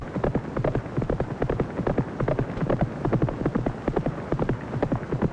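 Hoofbeats of a racehorse galloping at full stride during a fast breezing workout on a track, a rapid, steady run of many loud, rhythmic thuds that keep going throughout with no break.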